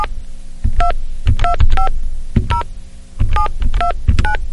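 Payphone keypad dialing tones: a quick series of short, bright beeps at slightly differing pitches, each with a soft key click, in uneven clusters with brief pauses between groups.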